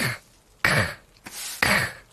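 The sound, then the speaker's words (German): A street sweeper's broom scrapes over pavement in a few coarse, raspy sweeps separated by short pauses, each a breathy rasping burst heard alone without talk. “Kommt an uns vorbei und sein Besen kratzt wie eine Asthmalunge über das Pflaster. Deine Lunge rasselt nicht, hörst du? Das ist der Besen.”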